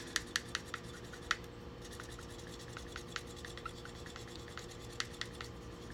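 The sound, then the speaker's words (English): A dry erase marker rubs permanent marker off glass, giving a faint, steady scratching with many small rapid ticks throughout and no voices. “you can write with permanent marker on like glass and stuff, and then you can erase it with a dry erase marker, literally just by rubbing it like that”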